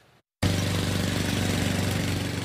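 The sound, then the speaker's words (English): An engine runs on an unfinished flower parade float chassis of welded metal during a test run in Irwindale, starting abruptly after a brief silence into a loud, steady, rumbling drone. “It was the purr of the engine that brought a small crowd to Irwindale, a chassis of carefully welded metal that will eventually hold the blooms and the hearts of those watching.”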